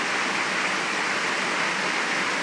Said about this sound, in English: That is just the rain's just pouring down here still.